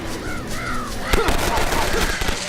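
Rapid machine-gun fire in a video game rattles in dense, steady bursts throughout, with cawing bird-like cries mixed in over the gunfire.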